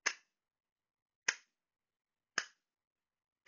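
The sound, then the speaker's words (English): Wooden finger cymbals give four sharp, dry clacks, spaced roughly a second apart. Each is brief with a quick decay, with silence between the strikes. “I have my wooden finger cymbals on right now,”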